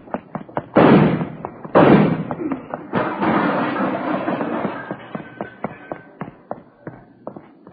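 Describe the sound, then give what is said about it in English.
Two loud, sharp gunshots in a radio drama ring out close together, each with a noisy decaying tail, surrounded by many small clicks and knocks. “Lousy deal, you didn't have to shoot.”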